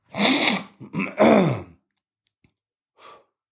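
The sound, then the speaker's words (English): Someone hawking up a loogie from the throat: a couple of harsh, raspy bursts with a groaning voiced edge, then a faint, short breath after a pause. “first of all, I got a loogie in my throat”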